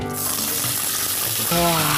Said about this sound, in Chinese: 把咱们兑好的汁儿直接下锅，走。